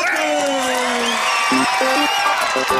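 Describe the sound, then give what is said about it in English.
Audience applause and cheering at a show's memorial ceremony, loud and continuous clapping with crowd noise, whoops and a voice over the top. “Ladies and gentlemen, put your hands together.”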